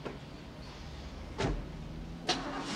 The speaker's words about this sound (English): She gets into the car. Marvelous. Harry's car pulls out into the quiet road and drives off along the street.